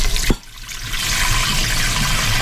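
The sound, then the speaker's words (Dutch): Water being poured into several cooking pans: a brief sharp knock, then a steady, loud rushing pour that continues to the end with no voices. “Zal ik een beetje water in alle pannetjes toevoegen.”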